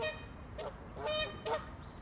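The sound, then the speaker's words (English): Canada geese honk at a farm park, with a few loud, nasal calls over a steady rushing background noise. “I've got the Canada geese having a go.”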